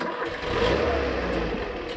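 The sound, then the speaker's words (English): Engine of an old Pinzgauer, an Austrian troop carrier used as a safari vehicle, rumbling loudly and steadily in a low, rough drone with no break for the whole two seconds. “These are our safari vehicles. They're Austrian troop carriers, Pinzgau as they're called.”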